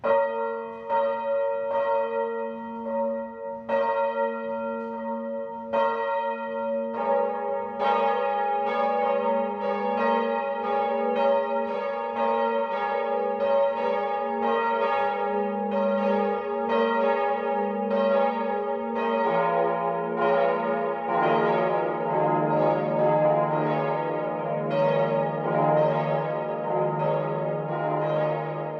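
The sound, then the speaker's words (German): Church bells ring the midday chime at a Catholic parish church in Selb, Upper Franconia. A single bell strikes at a steady pace at first, then more bells join in a rich, overlapping peal, and a deeper bell enters later. “Das Mittagsläuten kommt heute von der katholischen Pfarrkirche Herz Jesu im oberfränkischen Porzellanort Selb.”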